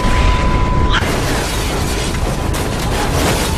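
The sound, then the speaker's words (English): A cruise missile strike exploding in a video game comes through as a loud, continuous roaring rumble that holds steady for a few seconds without clearly separate blasts. “Cruise missiles are good to go.”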